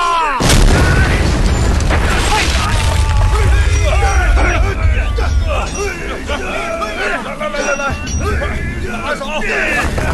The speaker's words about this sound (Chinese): 使劲啊，放炮啦！